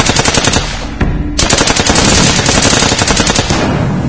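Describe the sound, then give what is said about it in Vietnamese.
Loud automatic gunfire in a surprise attack on a village, rapid bursts of shots running almost continuously with one short pause near the start. “Một phát súng nổ, một mồi lửa ném tung lên,”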